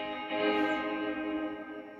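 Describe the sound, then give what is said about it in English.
A held harmonic tone run through the dual echo-reverb of the Mangled Space plugin, swelling briefly and then smearing into a dense, washy tail that fades slowly over about two seconds. “Mangled Space is quite strange. There's a lot of cool stuff on that, though. Dual reverb.”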